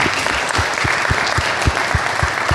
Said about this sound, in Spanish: Un aplauso para el maestro Julio Villegas